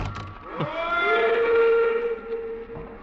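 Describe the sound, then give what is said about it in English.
A train's whistle sounds as it pulls away from a station: a long sustained tone that bends upward at the start and then holds steady, over a low rumble, with no voices. “I stood there on the embankment as the train pulled away.”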